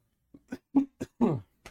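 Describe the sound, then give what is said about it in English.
A person coughs six times in quick, faint bursts. The coughs are short and dry, with one longer, rasping cough near the end, and there is no talk. “I don't know where this cough came from.”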